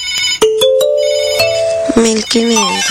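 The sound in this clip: Electronic telephone ringtone playing a bright, melodic run of repeated notes, with a voice speaking over the tones near the end.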